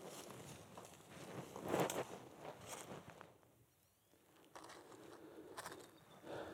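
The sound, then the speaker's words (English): Faint footsteps of someone walking along a riverbank, irregular soft steps mixed with light rustling, dipping into a quieter pause midway before the steps resume. “So let's walk on down the bank, see what else we can see.”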